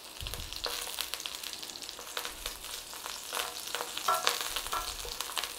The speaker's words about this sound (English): So when your water's evaporated and you're down to the oil, just start putting a little bit of browning on those sausages, nice and gently.